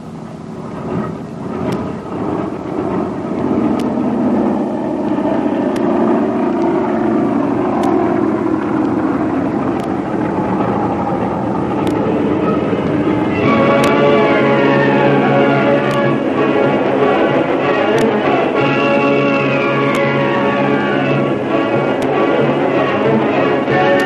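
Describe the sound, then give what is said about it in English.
A big passenger airliner takes off from a concrete runway, bound southwest for Mexico, its engines roaring in a loud, sustained wash while whining tones shift in pitch through the later half. “Concrete runway, up into the air, the big passenger airliner takes off on the first leg of its eventful journey southwest to Mexico.”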